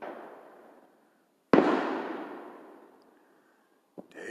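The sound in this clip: Fireworks explode at a Fourth of July celebration: a sharp, loud bang blooms into a long fading rumble, then a smaller crack follows. The tail of an earlier burst fades out at the very start.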